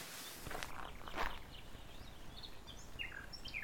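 Someone walks with soft footsteps, a few scuffing steps on the ground, while birds chirp and tweet faintly in the background.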